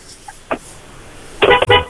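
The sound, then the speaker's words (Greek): A car horn honks a few times, a brief toot followed by louder, longer blasts near the end, sharp against quiet background noise. “Μην κορνάρεις, βγήκαμε. Μην κορνίρεις, ρε.”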